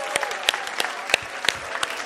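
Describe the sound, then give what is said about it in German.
Applause for Jesus during a church service, with sharp, distinct claps rising out of a softer bed of clapping and voices, fairly lively and uneven in rhythm. “Und dann lass uns mal Jesus nochmal einen kräftigen Applaus geben.”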